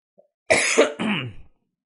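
A single harsh cough from a person who feels sluggish and unwell, a rough throaty burst in two quick parts, heard on its own with no talking.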